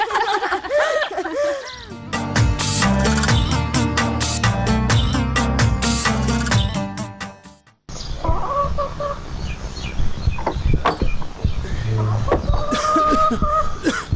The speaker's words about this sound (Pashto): آه، دلته یم، چرګانو ته وچه ډوډۍ خیشته وم.